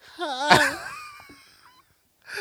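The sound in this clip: A voice imitates the last breath of air leaving a corpse's lungs as they are emptied during an autopsy: a wavering, wheezy moan that wobbles in pitch, then thins and fades out over about two seconds.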